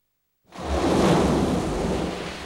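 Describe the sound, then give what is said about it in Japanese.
A typhoon storm with thunder and rough waves: a broad, deep roaring rumble bursts in abruptly after silence, then holds steady and eases slightly toward the end. “水曜日、台風通過。ああ、大荒れだわ。”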